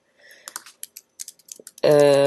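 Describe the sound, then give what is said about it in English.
Typing a keyword on a computer keyboard: a quick, irregular run of light key clicks, followed at the end by a loud, sustained tone. “So I'm just going to type in the keyword musician.”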